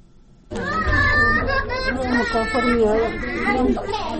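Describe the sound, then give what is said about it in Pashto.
Loud, continuous crying and wailing voices fill a grieving family's home after a 15-year-old boy was killed in an attack. The high, wavering cries begin abruptly after a brief quiet moment and overlap without pause. “دلته د 15 کلن عبد النصیر د کور له هرې برخې د ژړا او چغو غږونه اوریدل کیږي”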